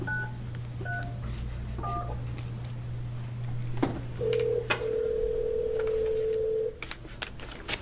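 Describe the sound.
Touch-tone telephone dialing during a state senate committee hearing: a few short dual-tone key beeps, then a long steady tone held for a couple of seconds, over a constant low electrical hum.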